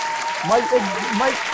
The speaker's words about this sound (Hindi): आपके लिए तालियों की गूंज